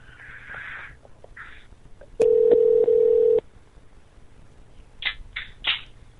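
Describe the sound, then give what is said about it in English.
Telephone call being dialed: a steady electronic tone holds for about a second, with faint clicks before it and a few short chirping beeps after it. “I'm calling Salt Lake City right now.”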